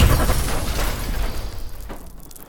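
A power blast explosion sound effect: a loud, broad roaring rush that starts at full strength and slowly fades away over about two seconds, with no voices.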